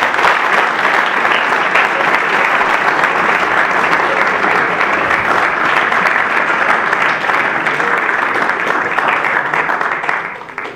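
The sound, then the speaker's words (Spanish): A conference audience gives a lecture's invited speakers a loud, sustained round of applause. The dense, even clapping holds for about ten seconds, then tapers off at the very end. “Así que los recibimos con un fuerte aplauso.”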